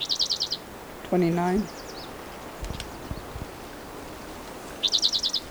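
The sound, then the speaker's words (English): Bird calls ring out in two short bursts of rapid, high-pitched trilled notes, one at the start and one at the end, with quieter background noise in between. “I can't see the bird, so I don't know where he is.”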